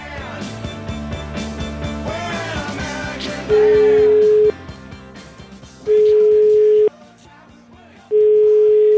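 Three long, steady telephone ringing tones sound as an outgoing call connects, each lasting about a second with gaps between them; a denser mix of other sound fills the opening seconds before the rings begin.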